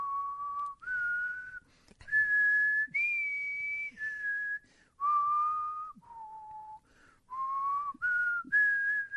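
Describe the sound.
A person whistles a tune likened to a navy march, a bright melody of held notes that step up and down in pitch, alone and fairly clear.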